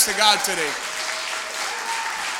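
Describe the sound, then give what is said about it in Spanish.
Church audience applause offered to the Lord: a voice is heard briefly at the start, then a steady, dense clapping wash follows at moderate level with a faint sustained tone running beneath it. “dar un aplauso al Señor fuerte.”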